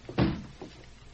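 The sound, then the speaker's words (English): A safe door shuts with a single heavy thud, followed a moment later by a softer, short click as it is locked. “Now, I'll close and lock the safe.”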